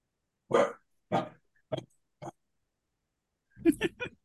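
A dog barks in a few short, separate bursts, then after a pause lets out a quick cluster of several more barks.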